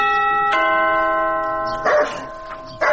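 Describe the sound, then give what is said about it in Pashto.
A doorbell chime rings at a house door. Steady ringing tones hold, and a second tone joins about half a second in. They fade slowly, then a couple of short, louder noisy bursts follow. “تو درېږه، دا د دروازې زنګ ووهم.”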